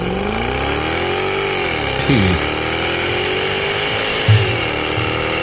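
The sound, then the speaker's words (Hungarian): A lazily revving V8 engine with an automatic transmission gives a steady, low drone. Its pitch dips and climbs again as the revs shift, and there are two brief thumps, one midway and one near the end. “Egy igazi lustán forgó paraszt V8 automata váltóval.”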